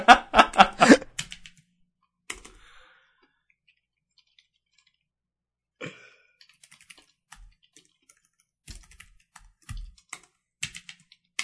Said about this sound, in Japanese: せーのでエンターキーを押すスタイルにしましょう。